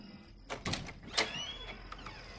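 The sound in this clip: A front door is opened: faint clicks and knocks, then a short, thin squeak that rises slightly, all soft and without talk.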